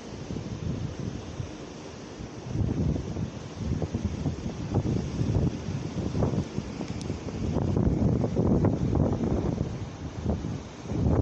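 Waves washing onto a sandy beach in the wind, heard as a continuous rumbling surge that swells and eases beneath steady, blustery wind noise, with no talk.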